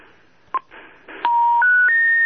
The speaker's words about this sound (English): But when I dial a number from my canceled line...